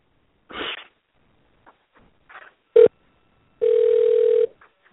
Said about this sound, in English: Here we're trying to get our guest on the air. So let's dial her in and see if she will pick up.